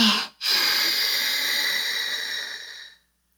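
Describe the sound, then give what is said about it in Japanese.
A slow, deep breath drawn in during a breathing exercise: a steady, airy hiss that holds for about two and a half seconds after a brief sound, then stops abruptly. “とりあえず5セットくらいやってみようか。5秒吸って、”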